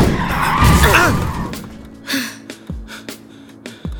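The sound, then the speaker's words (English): A car skids with a harsh, wavering tire screech for about a second and a half, then a few scattered thuds and knocks follow. “Whoa! Look out! We're skidding. Hang on. Hang on.”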